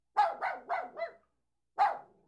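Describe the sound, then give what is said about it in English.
An old dog barks five times: four quick, moderately loud barks in a row, a short pause, then one final bark. “An old dog followed him.”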